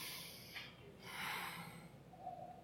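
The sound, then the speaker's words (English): A deep breath drawn in through the nose, a soft, airy sniffing hiss that swells and lasts over a second, faint and alone with no talk. “God's anger looks like taking a deep breath through his nose. It looks like this.”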